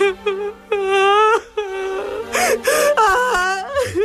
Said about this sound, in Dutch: De vrouw ontdaan huilt.